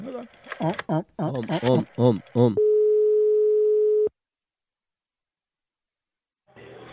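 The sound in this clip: Telephone dial tone sounds while a call is being placed: after a stretch of talk, one steady, unbroken tone holds for about a second and a half, then cuts off into silence before a brief noise at the very end.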